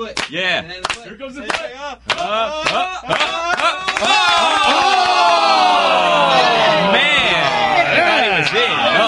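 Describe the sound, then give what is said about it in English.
People in a studio clap in rhythm, as done while awaiting a tennis challenge review, mixed with shouting voices. The sound then swells into loud, continuous crowd noise. “Why are you guys clapping back there?”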